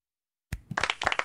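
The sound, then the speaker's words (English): Hand clapping that bursts in after half a second of silence, a quick, uneven run of crisp claps growing slightly louder and denser toward the end. “Clap, clap, clap.”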